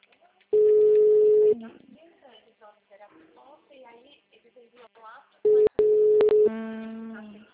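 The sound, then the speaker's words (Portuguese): Ringback tone of an outgoing phone call, a steady mid-pitched tone lasting about a second, sounding twice with a person talking between them, then a few clicks and a buzzier tone with harmonics. “Tô ligando pra ela.”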